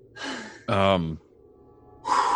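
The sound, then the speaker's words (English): Someone takes a big breath of fresh air: a breathy inhale, then a loud voiced sigh, then another audible breath. “I'm going to take a big breath of all that fresh air.”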